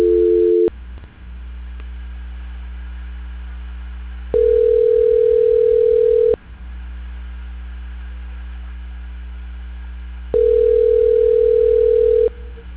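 A steady telephone line tone plays while a call is being transferred: three long, level tone bursts separated by longer gaps, over a constant low line hum.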